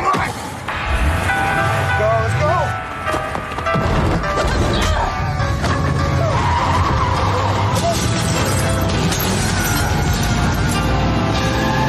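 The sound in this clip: A car drives hard and skids, with a loud, continuous engine roar and squealing tyres running through the whole stretch, plus a few brief knocks mixed in.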